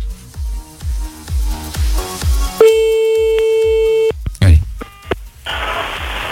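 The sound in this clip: A telephone call being placed: a steady ringing tone cuts in after a beat-heavy music bed, followed by a few sharp clicks.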